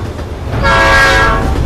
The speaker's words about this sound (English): As night falls, a train passes, headlights blazing.